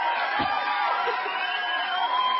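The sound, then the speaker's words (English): Studio audience in Minneapolis cheering and whooping, a steady crowd roar with a few raised voices, holding at an even level from start to finish. “Do we have some applause back there in Minneapolis?”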